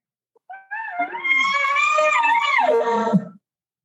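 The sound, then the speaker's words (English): A human voice imitates a bull elk contact bugle: one sustained, wavy, fairly high note that wavers, then drops into a short growly ending, heard alone. “And that contact bugle is like a wavy note. It's a little growly sound. It sounds kind of like this,”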